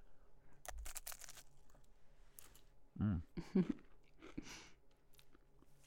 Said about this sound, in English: So shall I have a bite now and we'll see? Yes, please. See what it tastes like.